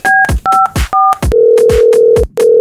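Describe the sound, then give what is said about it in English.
Three dual-tone keypad beeps as a telephone number is dialed, then a loud, steady ringback tone that breaks off briefly and resumes, with sharp thumps recurring throughout. “I'm gonna call the homie Mark Stout.”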